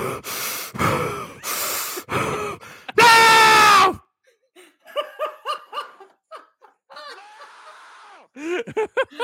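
Very heavy breathing: a few long, loud, rasping breaths in a row, then many short, sharp gasps and squeaky, panting bursts with brief pauses between them.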